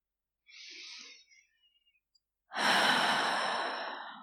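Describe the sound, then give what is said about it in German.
A deep breath in and out, taken during a guided relaxation: a faint, soft inhale, a short pause, then a long, loud, breathy exhale that fades slowly. “Atme einmal tief durch.”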